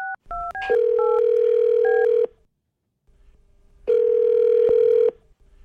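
A telephone being dialed: a quick run of high dual-tone keypad beeps, then two long, steady ring tones separated by a pause of silence.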